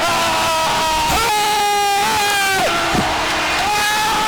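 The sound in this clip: Loud crowd roar fills an ice hockey arena right after a goal in a home-team playoff game. The cheering is sustained and dense from start to finish, with high held tones running through it.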